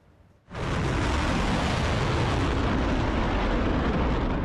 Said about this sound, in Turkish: Amerika Birleşik Devletleri'nin İran'a yönelik saldırı düzenlemesinin ardından 3. gecede de İran'dan patlama sesleri yükseldi.